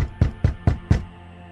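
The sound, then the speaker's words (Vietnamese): Four heavy, evenly spaced thuds of banging on a door, deep and booming with short decays, followed by quiet. “Giọng nói vừa dứt, thì tiếng đập cửa la hét bên ngoài vang lên dữ dội.”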